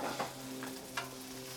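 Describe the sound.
Eggs fry in oil on a griddle, a soft, steady crackling sizzle over a faint tonal hum, broken by two brief light tap or scrape accents.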